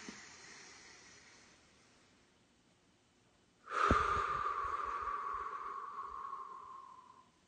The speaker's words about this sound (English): Let's take three breaths together in that place of oneness. In through the nose.